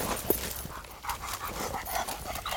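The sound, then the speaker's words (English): A hunting hound pants after running out of the woods toward a road: many quick, breathy gasps in a steady rhythm, fairly faint, with no voices. “Butch and Mike rushed to intercept Dog the dog as he raced out of the woods towards the road.”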